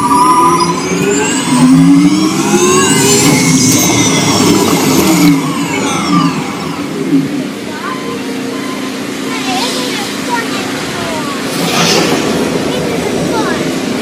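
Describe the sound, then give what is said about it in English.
Simulated off-road car engine revving on a SimCar amusement ride attraction, a loud, continuous mechanical whine that sweeps up and down in pitch early on, then settles into a steadier drone over a constant low rumble. “Commencing SimCar off-road and extreme weather sequence.”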